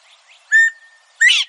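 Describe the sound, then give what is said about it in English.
A northern bobwhite, the only quail native to eastern North America, gives its two-note whistled call: a clear steady first note followed by a richer, upward-sweeping second note, with faint soft chirps just before. “maybe the most vivid example is the call of the bobwhite. It's the only quail native to eastern North America.”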